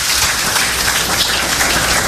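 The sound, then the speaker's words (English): Audience clapping, a dense, even patter of many hands held at a steady loudness with no voices standing out. “Yeah, you guys can clap on that.”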